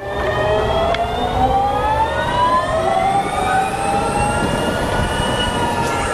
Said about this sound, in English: It sounds like a boosted board. I mean, obviously, the first thing you're going to notice is the sound. You're riding a Harley.